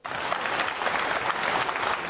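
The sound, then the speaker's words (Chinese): Audience applause at a crosstalk comedy show: dense, steady clapping that holds at an even level for about two seconds, with no voices over it. “谢谢四位的掌声鼓励。”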